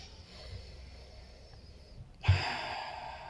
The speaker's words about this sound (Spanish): Hice una pausa para poder respirar, ya había hablado mucho tiempo.